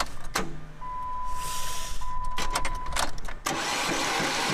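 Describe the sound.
A car engine being cranked to start, the starter giving a strained whirring with a thin steady whine, broken by a few harsh bursts before settling into a constant rushing noise.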